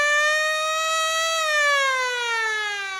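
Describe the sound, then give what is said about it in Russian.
A powerful siren roars as one loud, sustained, harmonic wail. It holds a steady pitch, then slides slightly lower in the second half, with nothing else heard. “Все звуки заглушил мощный рев сирены. Сигнал был коротким, секунды на две, и повторился дважды.”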